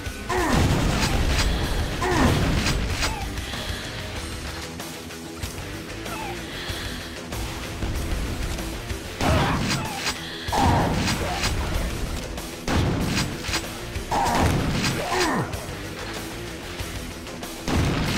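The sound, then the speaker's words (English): Rocket explosions in a video game: several heavy, booming blasts land at irregular intervals over a continuous rumbling game background, some in quick pairs. “I guess I fucking just killed him with those rockets.”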